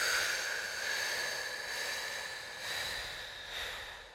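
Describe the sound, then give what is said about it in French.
Slow breathing in and out during a guided breathing exercise, a soft airy hiss that swells and eases a few times, with no talking over it. “Et on inspire. Et on expire.”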